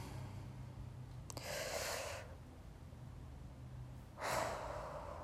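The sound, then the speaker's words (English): Two long, soft breaths, a slow deep intake and a release, drawn while settling in to relax, each a hushed airy rush lasting close to a second, with no talking and a faint low hum running steadily underneath. “Take a deep breath with me, though. I need one, so let's do it together.”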